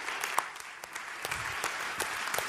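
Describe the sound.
Audience applause welcoming a speaker to the stage, a dense, steady patter of many hands clapping with sharper individual claps standing out.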